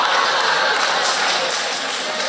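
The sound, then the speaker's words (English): An audience claps in an even, unbroken wash of applause that lasts the whole moment. “Why are you clapping? That's terrible.”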